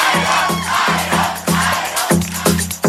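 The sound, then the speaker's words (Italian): Loud audience ovation and cheering with rhythmic, chant-like pulses that surge steadily and without a break throughout. “Ovazione del pubblico”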